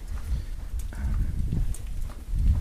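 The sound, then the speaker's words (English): Footsteps walk down a long hallway, heard as soft, muffled thumps in a fairly steady rhythm, with a lanyard and an attached iPod swinging along. “You probably hear my lanyard and my iPod hitting the lanyard. And you probably hear my walking too.”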